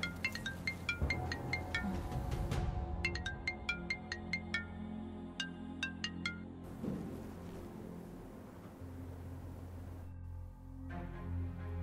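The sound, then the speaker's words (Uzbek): A mobile phone rings with a repeated pattern of bright, high electronic notes in short bursts, with brief pauses between phrases, over a low steady background hum. The ringing is fairly faint throughout. “boyadan beri jingillaydi telefoningiz.”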